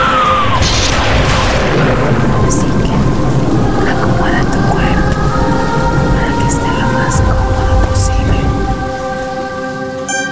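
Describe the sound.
A thunderstorm pours heavy, steady rain with low rolling thunder, with sustained tonal sounds layered on top; the roar stays loud throughout and eases slightly at the end.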